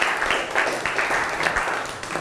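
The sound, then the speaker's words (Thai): Classroom students clapping for themselves after a worksheet exercise: a dense, steady patter of many hands that holds at an even level for the whole stretch. “มีไหมไม่มีปรบมือตัวเองหน่อย”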